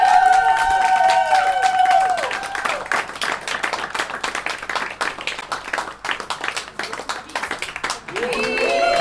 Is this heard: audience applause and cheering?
yes